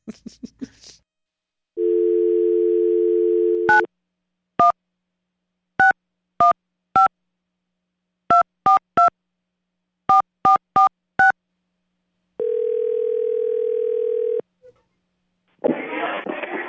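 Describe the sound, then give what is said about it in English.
A telephone call being placed: a steady dial tone, then a quick run of touch-tone keypad beeps in irregular groups, followed by another long steady tone. Brief bursts of noise open and close the sequence. “Anyways, let's call Tin Roof.”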